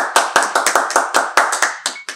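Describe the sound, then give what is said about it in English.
Men clap their hands in a brisk, steady rhythm: a long run of sharp, loud claps spaced evenly and close together, with no voices. “it's the men clapping.”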